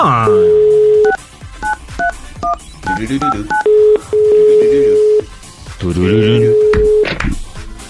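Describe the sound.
Touch-tone beeps dial a telephone number over a steady dial tone, a quick run of short pitched tones in bursts, with voices talking over parts of it.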